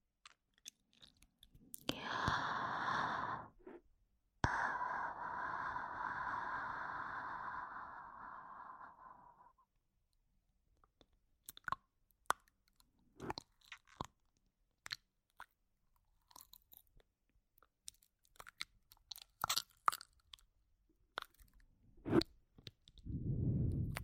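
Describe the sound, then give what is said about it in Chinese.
Tongue and lip mouth sounds: a long, moist, crunchy stretch like chewing gives way to many scattered sharp clicks and smacks. The sounds are fairly quiet and there is no talk. “接着听听我舌头和嘴唇发出的声音。”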